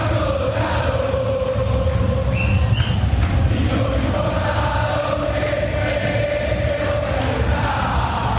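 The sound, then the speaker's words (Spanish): Football stadium crowd at a Boca versus Huracán match, a steady, dense roar of massed voices that keeps up for about eight seconds. “Vamos a ver Jiménez. Escuchen el público.”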